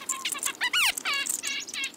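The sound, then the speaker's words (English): Small birds mob an owl. Chickadees, kinglets, nuthatches and a downy woodpecker join in with high, rapid chirps and chattering calls. The notes overlap, and a few sharp downward-sweeping cries stand out, moderately loud throughout. “or more small birds dart back and forth above and below the owl. Chickadees, kinglets, nuthatches, and a downy woodpecker all join the fracas.”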